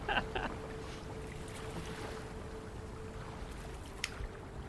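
A ship sails the open sea with a steady, faint wash of wind and water noise, broken only by a small click near the end.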